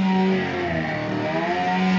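Snowmobile engine racing through snowy woods: a loud, steady droning whine with a strong harmonic tone that holds nearly constant, dipping only slightly in level.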